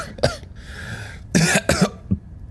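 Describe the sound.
Several sharp, raspy coughs after inhaling drywall dust while breaking open walls, bursting out in uneven bursts with a breathy hiss between the first cough and the later cluster.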